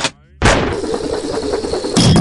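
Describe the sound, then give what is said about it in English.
A grapple gun fires with a sudden loud blast that carries into a sustained rushing whoosh, then a second sharp burst near the end. “Now, for this grapple gun.”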